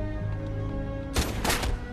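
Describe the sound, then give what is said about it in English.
A few gunshots go off as sharp, loud bursts in quick succession after a steady low hum, then the hum carries on. “Oh, they shot him again.”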